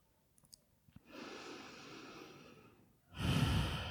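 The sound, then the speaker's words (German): Deep breath drawn in and released through an open mouth during a relaxation exercise: a faint soft inhale swells and fades, a brief pause, then a louder breathy exhale; a few tiny clicks before it. “nimm tiefen Atemzug ein und durch den geöffneten Mund aus”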